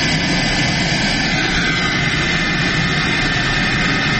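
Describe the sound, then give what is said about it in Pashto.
A private passenger airplane, arriving in Uruzgan province, Afghanistan, gives a loud, steady engine roar. The dense, unbroken drone holds at a constant level throughout, with no voices. “دا د کامیر په نوم یوه خصوصي طیاره ده چې تر دریو کلونو وروسته اورزګان ولایت ته راغلې”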